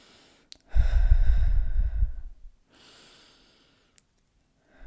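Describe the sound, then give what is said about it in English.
Deep breathing during a guided relaxation exercise: one long, loud breath of rushing air, then a softer, shorter breath, then near silence. “Now I want you to take 3 deep breaths with me again.”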